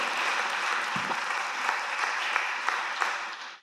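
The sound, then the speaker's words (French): An audience at a French-language church service applauds after a scripture reading. The dense, steady clapping keeps an even level, then fades out quickly at the end. “Est-ce qu'on peut acclamer pour la parole du Seigneur?”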